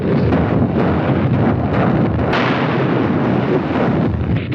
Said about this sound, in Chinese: 王城呼叫，王城呼叫，向四号目标开炮。 四号目标射击。